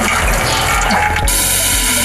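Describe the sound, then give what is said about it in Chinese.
Water is poured over crushed, freshly harvested red peanuts to filter them, making a loud, continuous rushing splash that holds steady throughout, its texture shifting slightly partway. “花生捣碎，加水过滤”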